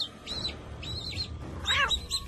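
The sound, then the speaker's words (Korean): Newly hatched chicks peep in a few thin, high-pitched chirps, short bursts spaced irregularly over a faint low background hum, fairly quiet overall and with no voices. “삐약삐약 울어대는 병아리들, 그리고 녀석들을 지켜보는 고양이 해롱”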